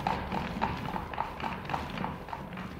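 Steady clip-clop of horse hooves as a light open horse-drawn carriage sets off, with many even hoofbeats in a regular trotting rhythm at a constant moderate loudness.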